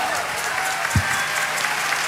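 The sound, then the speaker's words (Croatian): Applause for an orchestra: dense, steady clapping that holds for the whole stretch, with one brief low thump near the middle. “Idemo pljesa s orkestar i bez, stvarno.”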